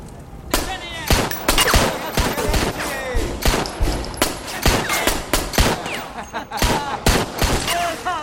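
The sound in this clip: Rapid gunfire rings out: many loud, sharp shots crack in dense, irregular bursts across the whole stretch, some in quick succession and others spaced apart.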